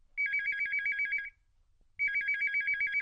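A telephone rings as a radio show calls a guest: two bursts of a warbling electronic ringtone, each lasting about a second, separated by a short pause.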